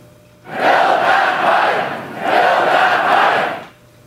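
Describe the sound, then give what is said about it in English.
Hundreds of oil industry supporters chant at a rally in Grand Prairie, Alberta. Two loud, sustained crowd chants rise out of quiet, each lasting over a second and separated by a brief dip. “Hundreds of supporters chanting and holding up placards in Grand Prairie to make their voices heard at what is a critical time for the industry.”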